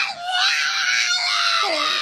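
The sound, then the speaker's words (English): A pug dog screaming: a shrill, sustained, wailing cry with strong harmonics that wavers for about two seconds and dips briefly in pitch near the end. “the screaming pug”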